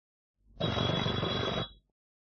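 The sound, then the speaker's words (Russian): A telephone bell rings as a call is put through to a number, one loud, buzzing burst lasting about a second, heard alone with no talk. “Скорее к телефону. Город Наговицы. Будьте любезны, соедините с номером 54.”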